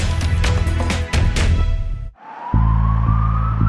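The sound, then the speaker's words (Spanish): An ambulance siren begins a slow rising wail after a stretch of loud, broad rumble, with a steady low hum carrying under the siren. “Esa es una ambulancia. Allí va alguien que necesita ayuda urgente.”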